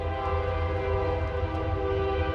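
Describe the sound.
A train going by outside a store and laundromat: a loud, constant low rumble with sustained tonal whining layered over it, holding steady for the whole moment without any talk.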